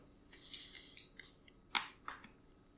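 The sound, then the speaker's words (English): Crisp, faint crunching as someone chews a snack with a coffee bean inside, taken with sips of whiskey; irregular bites come in quick succession, with the sharpest crunch near the middle. “And we can harass everyone's ears with our crunching.”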